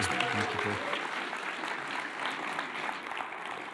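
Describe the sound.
A church audience applauds warmly to welcome a guest speaker at a morning service. The clapping is dense and even, a steady wash of applause that runs throughout without a break.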